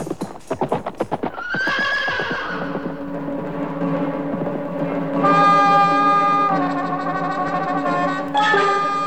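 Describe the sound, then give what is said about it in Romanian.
Horses clip-clopping and neighing: a quick run of hoofbeats opens, then loud, drawn-out whinnies with a high, wavering tone. “Camar să pregătească îndată caii cei mai buni. Îi spun acum. Aleargă!”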